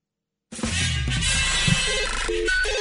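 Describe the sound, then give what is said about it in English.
A first-time caller fanfare jingle starts abruptly after a moment of silence and plays steadily at full level, with bright, ringing tones until the end. “Let us give you our first-time caller fanfare, which you're entitled to.”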